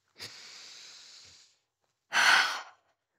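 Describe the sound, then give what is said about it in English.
A deep breath taken during a guided relaxation moment: a long, soft, airy inhale, a short pause, then a shorter, louder rushing exhale, with no talking. “Now I want you to close your eyes for a second and take a deep breath.”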